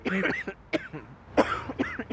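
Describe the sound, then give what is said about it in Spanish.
Whooping cough, heard as a rough spasmodic cough: a series of harsh bursts in uneven clusters with brief breaths between them, moderately loud and with no talk. “La consecuencia es la tos persistente y espasmódica.”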